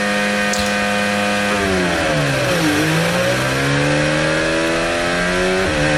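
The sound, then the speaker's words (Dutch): Formula One cars drive slowly out of the pit lane, a steady, loud high engine whine with layered tones whose pitch dips midway and then climbs again, no voices. “Ja, George Russell, langzaam rijden. De pit gaat uit, zoals eigenlijk iedereen.”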